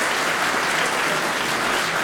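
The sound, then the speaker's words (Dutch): Audience applause for two guitarists at a live music performance: dense, steady clapping that fills the whole stretch at an even level, with no talk over it. “Zullen we even klappen voor ze?”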